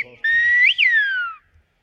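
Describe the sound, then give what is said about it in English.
A single clear, piercing whistle in the Canary Islands whistled language. It holds a steady high pitch, swoops up to a peak, then glides down before fading out, with faint low murmurs just before it. “The Canary Islands have a song of their own, in a whistle carried on the wind.”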